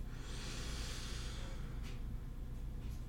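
A slow, deep inhale during a guided breathing meditation, a soft airy hiss lasting about a second and a half that fades out, followed by quiet low rumble.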